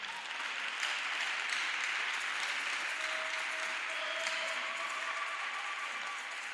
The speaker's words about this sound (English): you can clap and you need to clap.